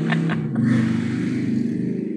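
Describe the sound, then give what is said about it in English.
A motorcycle going by outside a home, its low, steady engine rumble droning continuously with no clear rise or fall through the whole clip. “And that is a motorcycle going by.”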